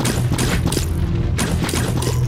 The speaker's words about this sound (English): She's shooting zombies at the moment.